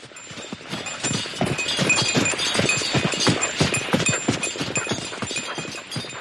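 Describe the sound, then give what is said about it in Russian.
Horses trotting on a winter road, hooves clip-clopping in many sharp, rhythmic beats that run without a break over a steady bed of noise, with no voices. “Лошадей сменили и опять в путь.”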